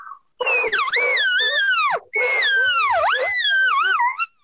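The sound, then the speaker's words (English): A hunter's voice imitates a distressed cow call in two long, loud, whining wails, each sliding up and down in pitch with wavering bends, separated by a brief pause. “I'll start making a cow call, but like a distressed cow call, you know, where she's just absolutely being, you know, harassed by this little bull. It sounds kind of like this.”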